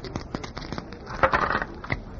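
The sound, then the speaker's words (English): Dice thrown and tumbling in a street dice game: a faint scatter of light, sharp clicks and rattles spread unevenly across the moment, with no talk. “It is not nice for a doll to be carrying dice. Look, what do you want me to throw? Try an eight, Silk”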